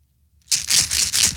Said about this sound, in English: It doesn't look like there's 30 Viagra. In there. How many are in there? Shake it.